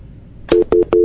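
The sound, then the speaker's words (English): Telephone line tones on a call with a silent caller: three loud, steady beeps, each starting with a click. The first two are short, and the third is held longer. “Telephone's working, but the caller was not prepared to talk.”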